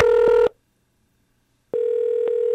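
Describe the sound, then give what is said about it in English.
A telephone line's ringing tone sounds while a call is placed, a steady electronic hum-like tone. One half-second burst is followed by a silent gap, then the tone starts again and continues to the end. “That's the sound of his phone.”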